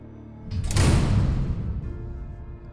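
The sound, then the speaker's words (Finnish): Mechanical prison cell doors closing together land as one heavy, loud slam, a broad metallic crash that swells quickly and then decays into a rumbling tail over about a second. “Ovet sulkeutuvat mekaanisesti, ja niitä on mahdollista avata ja sulkea sarjoissa. Kovin ääni syntyy, kun kaikki sellin ovet suljetaan kerralla.”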